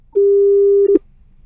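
Telephone busy tone on a call to a number in Kenya: one long, steady, mid-pitched beep, then a couple of quick short blips before it cuts off, with no talk over it.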